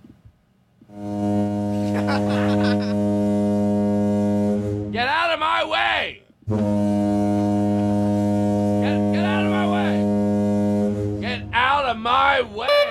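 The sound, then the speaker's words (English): A new, loud car horn blares at a green light in long, steady blasts, one stretching several seconds and a second even longer, with a man's angry shouting between and after the blasts. “Out of principle, I'm going to keep blowing my new loud horn.”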